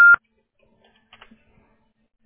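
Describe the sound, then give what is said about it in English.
One short, loud voicemail beep tone sounds at the very start. Near silence follows, broken only by a few faint clicks. “The Google subscriber you have called is not available. Please leave a message after the tone.”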